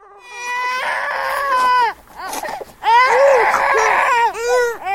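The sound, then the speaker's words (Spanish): A child cries loudly in long wailing sobs, with two sustained bursts of crying separated by a brief break of choked whimpers. “El llanto de un chico conmueve y despierta sentimientos encontrados.”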